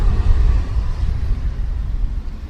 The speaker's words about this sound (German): So, wir überholen eine mutige Radfahrerin. Wir wechseln die Seite und geben Gas.